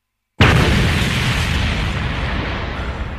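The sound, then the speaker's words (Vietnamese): A loud explosion bursts overhead. It is a single sudden, heavy boom that breaks out of silence and trails into a long, broad rumbling roar that slowly fades. “chỉ cảm thấy ở trên đỉnh đầu đột nhiên truyền tới một tiếng nổ lớn.”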